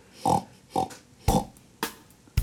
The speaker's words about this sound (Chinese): I'm a little pig, oink oink oink.